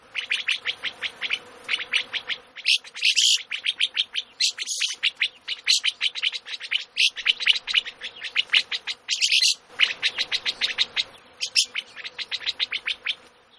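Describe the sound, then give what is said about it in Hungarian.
A rosy starling, or shepherd bird, calls in a long stream of many rapid, scratchy, gargling chatter notes, grouped in bursts with brief gaps and a few brighter, sharper notes among them. “ó, bakker, hát pásztormadár”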